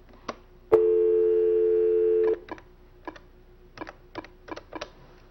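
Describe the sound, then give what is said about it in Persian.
A telephone dial tone, a steady hum held for under two seconds, followed by a series of short clicks as buttons are pressed to call an answering machine. “تلفن بزنم به انسرینگ ماشین خودم. میخوام یه پیغام واسهتون بذارم.”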